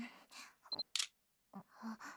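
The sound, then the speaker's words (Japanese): A camera taking a photo: a short high electronic beep, then a crisp shutter click, set among quiet, breathy voice sounds. “写真撮られた。最低。”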